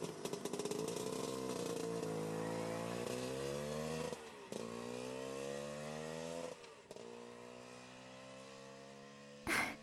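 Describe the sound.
A motorbike engine revving and pulling away, a loud buzzy drone whose pitch climbs in several repeated rises with short drops between them, then ends in a brief burst.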